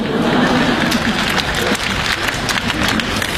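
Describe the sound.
Audience applause after a comedic couplet at a stage comedy show, dense and steady clapping that holds at a fairly loud, even level through the whole stretch.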